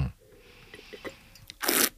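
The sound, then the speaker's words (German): A short, loud, airy slurp of red wine being drawn in to aerate it, coming near the end after a few faint small sounds. “Ich habe jetzt mal, Entschuldigung fürs Schlürfen, demonstrativ mal ein bisschen mehr Sauerstoff hinzugefügt.”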